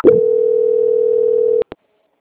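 A steady, mid-pitched telephone transfer tone holds unbroken for about one and a half seconds during a call, then cuts off and is followed by two brief clicks on the line.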